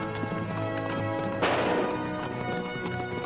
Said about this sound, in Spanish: Cabalga por una llanura. Tras él, un jinete con caballo negro.